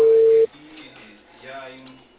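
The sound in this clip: A single short, steady telephone ring tone sounds on a phone line during a call to a cable company. A muffled, narrow-band voice talks over the line afterward.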